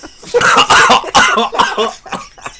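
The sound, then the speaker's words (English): A person coughs hard while choking on mucus, a loud run of a few harsh, raspy bursts with throat-clearing rasp and no speech. “I just choked on my own mucus.”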